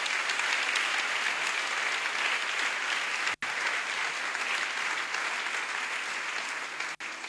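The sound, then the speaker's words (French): Applause for the nuns at a Catholic gathering, a steady, even wash of many people clapping that carries on for several seconds with two very brief breaks. “On acclame aussi nos sœurs quand même.”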